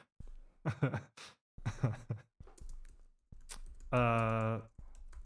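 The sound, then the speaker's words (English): Keyboard typing while writing out a message: light key clicks mixed with bursts of talk, then a drawn-out voiced sound before the typing resumes. “I'm going to type that out to her.”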